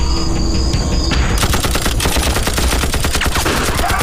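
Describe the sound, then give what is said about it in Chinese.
Gunfire during a rescue under fire: dense, rapid crackling shots like machine-gun bursts, loud and continuous, rising over a steady noisy background after the first second. “一会儿又开枪了”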